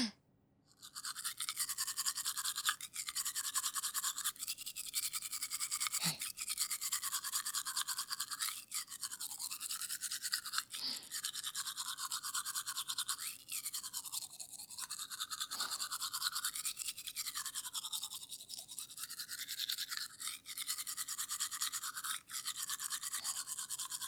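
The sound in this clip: A toothbrush scrubs teeth as one person brushes another's, making continuous bristly, hissing strokes with short breaks and shifts in rhythm and no talking.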